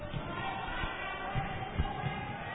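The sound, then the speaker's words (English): A basketball is dribbled before a free-throw attempt in a game, a few low, dull bounces spaced unevenly over a steady background murmur. “1, 2, 3 dribbles for Bronner up.”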